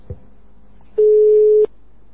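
A telephone call being placed, with one steady mid-pitched ringing tone lasting under a second after a faint click, heard alone with no talk.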